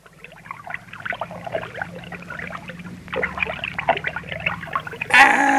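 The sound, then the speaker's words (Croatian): River water babbles and gurgles in a lively, uneven trickle with bubbly splashes throughout. A brief louder rush of water sounds near the end. “Je li ovo rijeka? Da, to je rijeka. Oslušnite samo kako lijepo žubori. Kao da nešto priča.”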